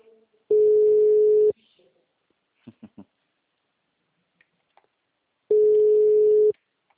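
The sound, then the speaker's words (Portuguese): Ringing tone of an outgoing telephone call: two steady, mid-pitched tones, each about one second long, separated by a long gap with a few faint clicks. “eu tô ligando pra você.”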